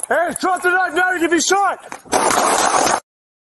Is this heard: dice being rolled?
no